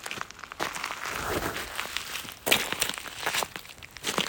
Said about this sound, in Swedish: Hon går före mig ner till Lainioälven, där den rinner genom hennes hemby, Övre Soppero i Kiruna kommun. Älvens strand är full med lite större stenar.